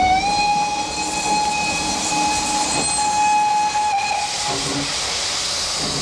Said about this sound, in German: Leviné steigt aus dem Zug. Auf dem Bahnhofsschild steht St. Petersburg.